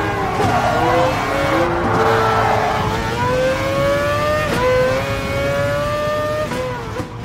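A race car engine revs in a racing video game, loud and continuous, its whining harmonic tone climbing in pitch in stages with brief dips between, as if through gear changes.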